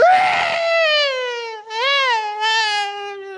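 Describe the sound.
A man's voice imitates professional mourners wailing, producing a long, loud, tonal cry whose pitch wavers and dips, then swells again in a couple of drawn-out surges.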